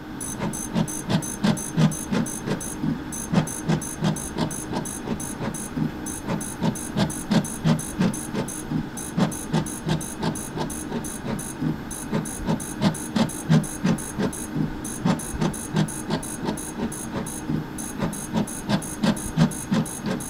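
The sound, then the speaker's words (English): A fluorescent plate reader runs with a steady mechanical hum and many regular, evenly spaced ticks and clicks that repeat throughout at a constant rhythm. “That was the sound of a fluorescent plate reader.”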